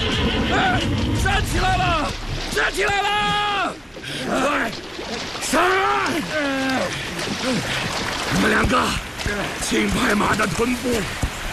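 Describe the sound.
A horse neighs as it is hauled out of a cold river, with a few loud whinnies rising over people shouting and splashing water.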